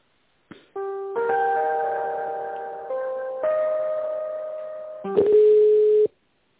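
Telephone tones while an office call is transferred to a tender department: steady electronic tones in several held segments that step between pitches, with no talk over them.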